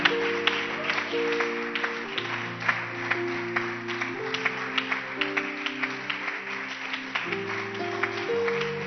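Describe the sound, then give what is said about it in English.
A church audience clapping their hands during a worship service, with steady rhythmic claps over sustained music that plays throughout. “Clap your hands for Jesus. Don't stop clapping.”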